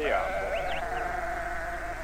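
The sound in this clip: Lambs bleating on a farm: a loud, wavering, high cry that trails off across about two seconds, with no other sound standing out.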